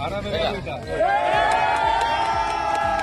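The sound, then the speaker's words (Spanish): Loud, excited cheering and shouting from Spanish military emergency rescuers as survivors are pulled alive from disaster rubble, with many overlapping voices whooping and calling out. “la alegría de los rescatistas cuando consiguen sacar de entre los escombros a personas con vida.”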